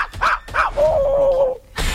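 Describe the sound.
Small female dog barking: two sharp yips, then a drawn-out whining note, then another bark at the end.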